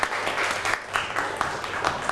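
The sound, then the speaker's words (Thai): Classmates clapping for group 6 after its presentation: a dense, even burst of applause that stays steady and moderately quiet throughout. “ปรบมือให้กลุ่มที่6อีกรอบหนึ่งครับ”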